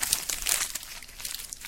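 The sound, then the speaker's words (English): Sheets of paper being crumpled up in the hands make a quick burst of crisp crinkling and crackling. It is brief and moderately loud. “That's the sound of me crumbling up the papers.”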